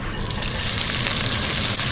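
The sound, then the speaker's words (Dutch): Finely chopped onion sizzles in a little olive oil in a hot wok. The frying makes a continuous, fairly loud hiss that stays even throughout, with no pauses. “Ik doe een klein beetje olijfolie weer in de pan. Dan gaat het uitje erin, gesnipperd uitje.”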